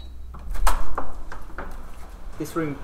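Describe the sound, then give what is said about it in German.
A door opens into a cool manuscript storage room in a university library: a few sharp clunks and scraping knocks in quick succession, and a brief voice near the end. “Bei einem Besuch der Bibliothek in Cambridge öffnet er den kühlen Lagerraum.”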